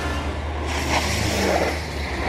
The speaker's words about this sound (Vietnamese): Két một tiếng, bỗng trước mắt anh liền xuất hiện một chiếc xe hơi, đèn pha rọi vào mắt anh.